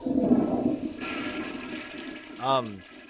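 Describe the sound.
A toilet flushes with a loud rushing, gurgling swirl of water that holds steady, then swells again toward the end as the flush drains away, with a voice briefly cutting in near the finish.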